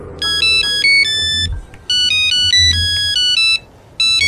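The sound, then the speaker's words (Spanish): A loud electronic ringtone for an incoming phone call, with bright repeating melodic phrases broken by two brief pauses. “en otro lado de Ciudad Paleta, la prima recibe una llamada.”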